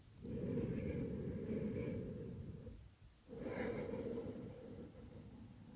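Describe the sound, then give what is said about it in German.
Deep breathing in through the nose and out through the mouth, as part of a calm breathing exercise. Two long, airy, steady breaths are separated by a brief pause. “nimm dann für dich 3 nährende, tiefe Atemzüge durch die Nase ein und durch den Mund wieder aus.”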